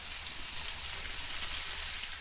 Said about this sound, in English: Food writer Sybil Kapoor sizzles up her own homemade hamburgers